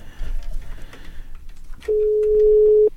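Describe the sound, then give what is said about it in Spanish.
A telephone tone sounds as a number is dialled again: after a stretch of low, murmuring background noise, one steady mid-pitched tone holds for about a second, then cuts off. “Pero márcale de nuevo.”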